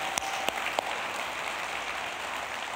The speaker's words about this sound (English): Can we just give everybody a big hand? Can you guys help me? Welcome everybody.